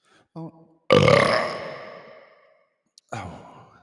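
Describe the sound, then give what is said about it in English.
A loud, rasping burp from a father who has just eaten sausage. It drags on for about two seconds and slowly fades, with a short grunt before it and another throaty burst at the end. “why do you eat sausage before you burp every time? So my breath smells like sausage when I burp.”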